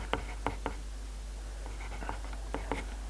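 A pen scratches across paper in handwriting, with a few faint, short strokes grouped in bursts and separated by pauses. A constant low hum runs underneath.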